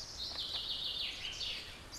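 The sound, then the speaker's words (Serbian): Birds sing in a continuous, high, twittering chorus outdoors in nature. The calls stay faint and steady throughout, with no voices. “A nitko ne sluša ptice. A ptice? Da, samo slušaj.”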